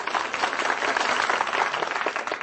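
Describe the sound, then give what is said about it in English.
Audience applause on a radio show: dense, steady clapping runs without a break for about two and a half seconds, with no voices over it. “I always knew people applauded for Brooklyn, but I didn't know they applauded for Wisconsin.”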